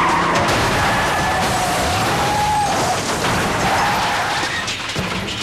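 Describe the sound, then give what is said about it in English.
Tires squeal as one car rams another: a wavering, high-pitched screech rises and dips over loud, continuous engine and road roar lasting the whole clip. “LC rams George's car.”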